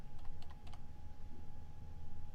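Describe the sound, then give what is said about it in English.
Faint typing on a computer keyboard: a few quick key clicks cluster near the start, then fade into a low, steady background hum. “Whoops, help if I type the P, picture.”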